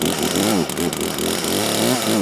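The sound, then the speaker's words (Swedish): A chainsaw engine revs hard, its loud buzzing pitch swinging up and down in repeated surges. “Och jag varvar igång motorsågen.”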